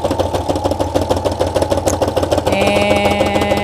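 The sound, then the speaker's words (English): A sewing machine back stitching: a loud, rapid, even mechanical chugging with many steady pulses, joined partway through by a sustained whining hum. “Back stitching. And we're off. Okay. Yay! I know it sounded painful, didn't it? Yeah. All right, but it's working.”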